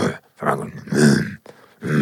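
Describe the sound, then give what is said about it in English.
A man's voice imitates an aggressive growl with a few low, rough, grunting bursts separated by short pauses. “give us a growl”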